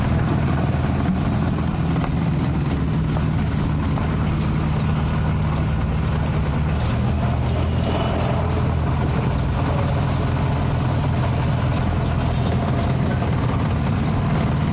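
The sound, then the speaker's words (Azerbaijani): Several tree-cutting machines run in a fenced-off area behind a metro station, near old fortress walls. Their heavy engines make a continuous low rumble that stays steady and even throughout, with no talk. “Burada bir neçə ağac kəsən maşın işləyirdi.”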